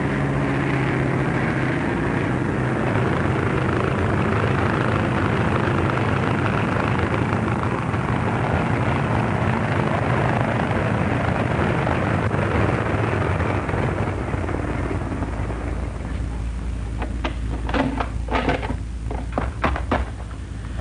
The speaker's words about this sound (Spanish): El avión es excelente, señor Burton. Voy a aterrizar.